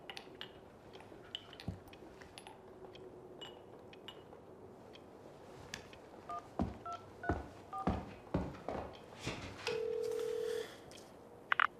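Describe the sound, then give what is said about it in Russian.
Touch-tone beeps from a telephone being dialed: a quick run of short key tones, then one longer steady tone, over faint background noise. “Звонит по телефону.”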